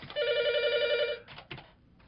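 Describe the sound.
A telephone rings for an incoming listener call-in: one steady, bright ringing tone lasting about a second, then a few shorter ringing bursts, with no talk.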